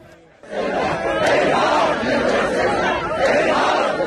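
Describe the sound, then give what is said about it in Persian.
A large crowd at a funeral procession in Iran for people killed by security forces during protests, shouting and chanting together. The sound is loud and dense, swelling in after a brief quieter moment and holding steady to the end. “تشییع جنازه ای با حضور انبوه جمعیت”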